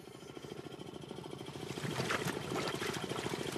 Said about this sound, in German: Im Hintergrund surrt ein Kompressor, er liefert die Atemluft.